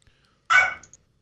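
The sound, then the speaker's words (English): Small dog barking at a doorbell: a single short, sharp bark breaks an otherwise quiet moment, loud against the silence. “Somebody downstairs rung the doorbell. So the biggest, quote unquote, my smallest dog is deciding to bark.”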